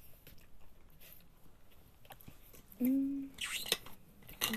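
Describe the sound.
Faint crunching and chewing as someone eats packaged snacks. Irregular crisp bites and soft mouth sounds come at an uneven pace, quiet throughout.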